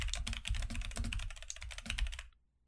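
Rapid typing on a computer keyboard while writing a note: many quick, uneven key clicks in a steady patter, with no voices, stopping abruptly near the end.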